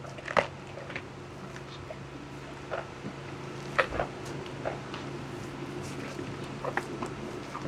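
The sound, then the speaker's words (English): A giraffe chewing corn being fed to it by hand: soft, irregular crunches and wet chomps, mostly quiet with a few sharper bites, over a low steady hum. “Jason is feeding them corn. Oh, sorry, girl. And this is the sound of giraffe chewing.”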